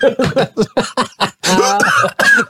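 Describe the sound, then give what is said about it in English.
A rapid run of short, dry coughs repeats in quick succession, then gives way to a few longer voiced throat sounds. “Boy, how many excuses can I make for just coughing in the middle of a read?”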